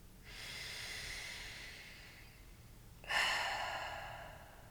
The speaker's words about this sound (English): close your eyes and breathe in for just a few seconds and breathe out.